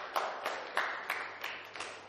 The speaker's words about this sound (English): Give Jesus a clap offering of praise.